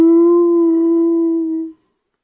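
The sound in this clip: A wolf-dog creature's howl: one long, steady, clear tone with bright overtones that holds its pitch for almost two seconds, then stops sharply into silence.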